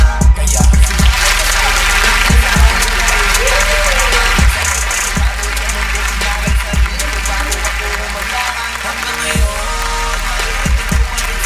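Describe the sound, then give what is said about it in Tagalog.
Audience applause, loud and sustained, with sharp individual claps standing out over a dense, steady background of noise. “Okay, mga kaibigan, palakpakan natin.”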